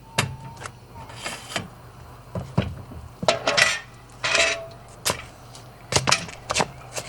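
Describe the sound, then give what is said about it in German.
A metal pot is moved and put away with many sharp, irregular clanks and clatters of metal and dishes in quick bursts, at a counter where coffee and cake are sold. No one speaks. “ich räum mal den Topf weg”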